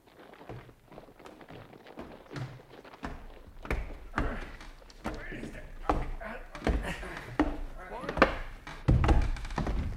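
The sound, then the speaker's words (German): A wardrobe is bumped against a wall, giving a run of heavy wooden thuds and knocks of varying loudness, mixed with people talking. “Du sei vorsichtig mit dem Schrank. Das ist zwar nicht meiner, aber du darfst ihn doch nicht so an die Mauer stoßen.”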